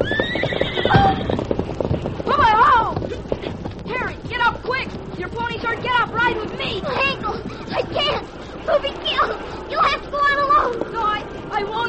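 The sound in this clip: Ponies fleeing a stampeding cattle herd: shrill whinnies repeat throughout over a busy clatter of hooves, while people shout and talk over the commotion.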